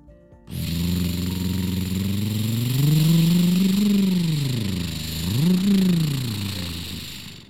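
Car engine starting and revving, a vehicle rigged for fire rescue driving: it catches abruptly, settles into a steady idle, then swells in a long rev and a second quicker rise and fall.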